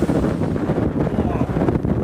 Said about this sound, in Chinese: 采访过程中，一场大风天气让记者直观感受到了有林和无林的区别。